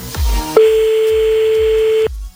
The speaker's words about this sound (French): Dernier appel, il va pas décrocher, tu vas voir. Bon, c'est pas grave, on appelle un autre, Mehdi